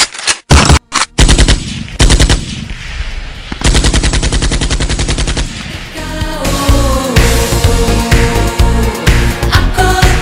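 Machine gun fire in very loud, rapid bursts: several short bursts with brief gaps at first, then a long stretch of continuous, rattling fire.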